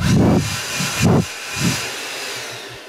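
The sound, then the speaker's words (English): A blower gives a few loud, short rushing blasts of air, with a lower whirring between them, tailing off toward the end. “That sounds like a blower.”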